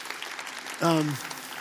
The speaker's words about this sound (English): You can clap for that.